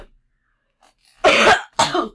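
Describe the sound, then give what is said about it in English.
Two coughs break a near silence, a longer harsh one followed shortly by a shorter second burst. “I just coughed.”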